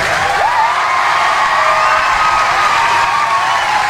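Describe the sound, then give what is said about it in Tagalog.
Loud crowd cheering, whooping and clapping for Central Philippine University after its exam passing rate is announced, a sustained wall of shouts and applause with no break. “So palakpakan ta ang Central Philippine University.”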